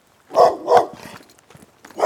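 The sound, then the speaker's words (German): A mangy dog barks in a few harmonic bursts: two strong barks close together, then quieter yelps, and a final bark rising at the end. “bring diesen räudigen Köter zum Schweigen!”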